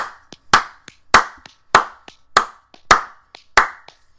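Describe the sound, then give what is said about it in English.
Hand clapping in a steady, even rhythm: six loud, sharp claps with softer claps between them, with no voices. “I could hear your dog enjoying the clapping on that one there.”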